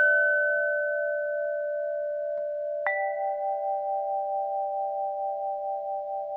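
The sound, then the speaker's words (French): Ringing of metal tubes hung horizontally on a frame and struck with mallets. A pure sustained tone rings, then a second strike adds a new, slightly wavering pitch that keeps ringing softly to the end. “Ça c'est un badgin, un instrument composé de tubes métalliques suspendus à l'horizontale sur un cadre et sur lesquels on frappe avec des maillets.”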